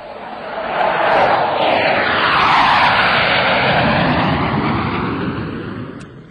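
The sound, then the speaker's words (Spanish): An airplane flies close by with a loud, roaring engine whoosh that swells in after about a second, holds with a sweeping tonal shift as it passes, then fades away near the end. “Uy, y un avión de cerca, que por cierto puede producir daños graves, podría llegar a los 150 decibelios.”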